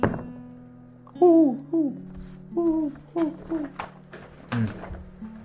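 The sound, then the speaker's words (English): Owls hoot at night in a tabletop fantasy game, giving several short, mid-pitched hoots in an uneven rhythm, separated by soft thumps and quiet gaps. “Owls. Yep. Seems like owls. They exist.”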